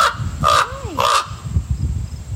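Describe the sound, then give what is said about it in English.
Raven calls: two harsh, hoarse croaks, loud and evenly spaced, over a low background rumble. “And crows are part of the corvid family, as are ravens, which, by the way, sound like this.”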